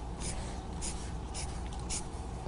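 Drawing strokes on a board, a few short scratchy bursts of friction spaced irregularly over a steady low hum, with no talking.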